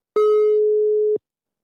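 A telephone ringback tone sounds while a call is being placed: one steady, mid-pitched electronic tone lasting about a second, clean and loud, with nothing else heard.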